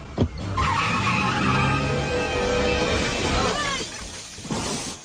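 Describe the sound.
A car driving off, its engine roaring loudly with skidding, squealing tires, a continuous burst lasting about four seconds before easing off.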